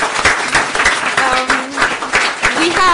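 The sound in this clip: Audience applause for the speakers at the close of a talk event, dense and irregular clapping that rises and dips, with people talking over it.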